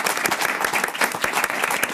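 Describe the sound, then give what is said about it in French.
A jury of 24 applauds a prize-winning novelist: brisk, steady clapping with many distinct hand strikes packed into a continuous, fairly loud round that neither builds nor fades. “Je voudrais que les 24 jurés qui sont avec vous vous applaudissent une nouvelle fois pour ce prix.”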